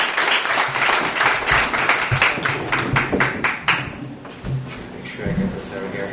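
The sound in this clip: A live audience applauds and cheers at a show, with a burst of brisk, scattered clapping that gradually thins out. A voice talks over the clapping near the end.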